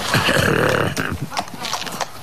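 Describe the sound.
A person mouths a horse sound for horses waiting at a race start: a wavering, whinny-like vocal neigh, then a few sharp clicking sounds like hoofbeats.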